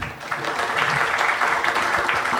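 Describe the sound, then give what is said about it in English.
Audience applause at a talk about media predictions: continuous, dense clapping at a steady, moderately loud level for the whole stretch. “So big cheer for Pete Robbins.”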